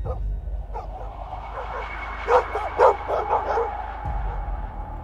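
A pack of neighborhood dogs barking fiercely near a house balcony where dragon fruit vines climb; a few sharp bark bursts cluster mid-clip over a steady low rumble, with yips and whines in between.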